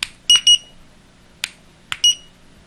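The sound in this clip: A digital kitchen timer's alarm goes off in a few short, shrill, high-pitched electronic beeps in an irregular pattern, with sharp clicks between the bursts.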